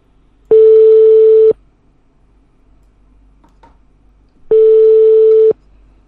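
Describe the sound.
A telephone call to a bank's field debt collector is ringing: two steady, mid-pitched tones, each about a second long, separated by a long quiet gap, with no talk.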